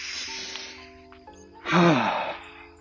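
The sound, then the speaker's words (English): A big, deep cleansing breath taken by people who are winded from walking up and down hills outdoors. A steady breathy hiss swells into one louder, rushing sighing exhale near the end, then fades. “So why don't we take a second to take a big, deep cleansing breath.”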